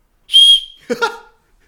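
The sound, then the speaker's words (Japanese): An emergency whistle gives one short, shrill, piercing blast, followed at once by a brief burst of voice. “もうこれ取って、 うん、 このホイッスル”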